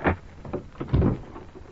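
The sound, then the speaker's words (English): A door opening, heard as a short run of a few soft thuds and creaky scrapes at moderate loudness, with no voices. “Behind every unopened door, there is a mystery. And the opening of this door introduces us to another in the series, the key.”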